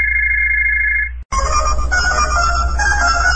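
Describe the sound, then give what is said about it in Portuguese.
A telephone rings with an incoming collect call: a steady electronic tone holds for about a second, breaks off briefly, then a louder, busier electronic ringing pattern carries on. “Chamada a cobrar, quem será o descarado que está ligando? Vou desligar.”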